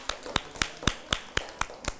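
Children clap for themselves after an art class, eight sharp, evenly spaced claps in a steady rhythm, moderately loud with no talking.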